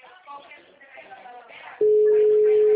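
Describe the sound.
A telephone call tone, a single steady pitched beep, cuts in abruptly after nearly two seconds of a voice talking. It then holds loud and unbroken to the end.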